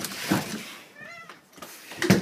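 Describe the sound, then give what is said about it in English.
A house cat meows once, a short, faint tonal cry in the middle of the moment, surrounded by soft rustling and low background noise. “interruption by the cat”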